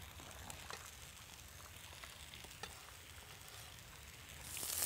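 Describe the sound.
Zucchini frying in a hot pan, a faint, continuous sizzle with scattered soft crackles that swells into a louder hiss at the very end.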